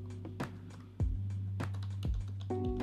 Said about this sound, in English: This thing tripping. I'm trying to type something. Ain't letting me type it.